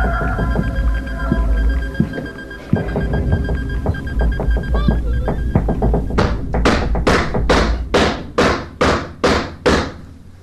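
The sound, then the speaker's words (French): Knocks answer a call to rap five times: a steady run of many evenly spaced sharp thuds fills the second half, after a busier stretch of softer, irregular taps. “Si c'est le jeune homme qui est là, tape cinq coups.”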